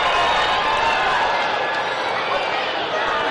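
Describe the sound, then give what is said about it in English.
Baseball fans getting loud in the stadium make a dense, steady crowd roar that holds at full level throughout without a break. “Tell the fans to get loud here. They oblige.”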